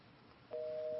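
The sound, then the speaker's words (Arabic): A dropped phone call ends in a steady electronic busy tone. Faint line noise comes first, then a single sustained beep at one pitch starts halfway through and holds to the end. “طيب انقطع اتصال مع أم عبد الله.”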